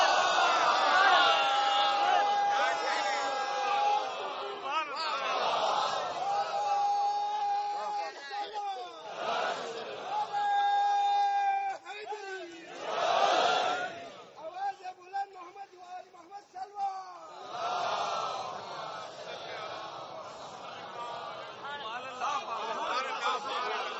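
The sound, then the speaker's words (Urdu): Crowd chanting Islamic religious slogans and durood salutations, with fervent massed voices rising in loud swells, dropping back, and resuming over a long stretch. “بس میں بھائی, نعروں میں بڑا جوش ہے, درود دھیمی ہے.”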